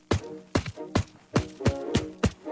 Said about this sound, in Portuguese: Esse é o som de quem corre junto.